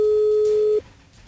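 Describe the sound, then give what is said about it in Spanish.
A telephone line signal sounds as a call is dialed live on air, a single steady electronic tone lasting under a second, followed by quiet line hiss. “La primera persona que le vamos a marcar en vivo ahorita.”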